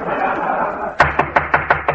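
Knocking at a door: six quick, evenly spaced raps following about a second of low background noise.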